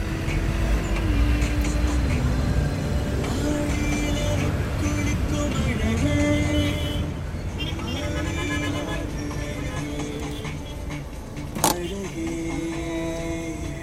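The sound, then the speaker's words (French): A taxi drives along a road toward Chennai airport with a constant engine and road rumble throughout. Voices run over the vehicle noise, and a brief sharp click comes near the end. “Sur la route direction de l'aéroport de Chennai”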